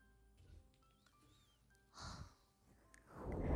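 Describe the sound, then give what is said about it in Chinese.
An animal breathes as it comes up to the surface: two breathy bursts of air, a short puff and then a longer, louder exhale, against a quiet background with faint tones. “上来呼吸的声音好听吗？”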